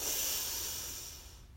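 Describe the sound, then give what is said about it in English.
A single deep inhale drawn in through the nose during a guided breathing exercise: a steady, airy hiss lasting over a second that slowly fades, heard alone with no voices. “take a deep breath in through our nose, hold for a moment”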